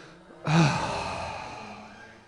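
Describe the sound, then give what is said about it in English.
A group of people groaning aloud together, one breathy swell that starts abruptly and slowly fades away over about two seconds. “Can we all just groan for a second out loud,”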